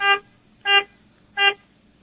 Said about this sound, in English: honk your horn 3 times